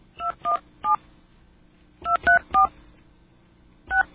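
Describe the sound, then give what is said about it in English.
Touch-tone dialing of a telephone number in the 217 area code: seven short, clear beeping tones in uneven groups of three, three and one, separated by pauses, with no voices. “Okay, I think enough time has passed where I can call that number again.”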